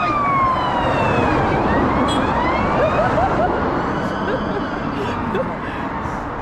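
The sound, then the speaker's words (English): Police and ambulance sirens wail together, their tones sweeping up and down and overlapping over a heavy, steady roar of background noise throughout. “I'm gonna do the police. Ambulances. Oh, that's not a good sign.”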